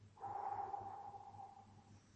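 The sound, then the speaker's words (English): A person slowly breathes out to imitate Jesus breathing on his disciples: one long, soft, airy exhale with a faint whistling tone that gradually tapers off. “Jesus, he breathed on them. Jesus must have stopped and with them. It wasn't during socially distanced time, so he would have breathed and”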